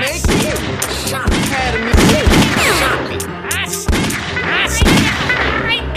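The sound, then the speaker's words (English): Rapid gunfire from a video game shooter played with unlimited ammunition forms loud, dense bursts of many overlapping shots and impacts. A voice is heard talking underneath. “I don't need to spare bullets. I have unlimited ammo. Oh, you shot me.”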